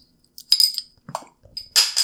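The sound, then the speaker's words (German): A cork is worked out of a bottle. Sharp glassy clinks and squeaky scraping bursts come in a few short clusters, with quiet gaps between them. “Jetzt müssen wir natürlich auch die Flasche aufkriegen. So, zack.”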